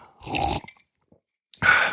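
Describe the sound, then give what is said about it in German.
Someone takes a sip of a drink in the middle of talking. Two short, wet mouth-and-swallow bursts are heard alone, separated by a near-silent pause. “Moment, ich brauche einen Schluck.”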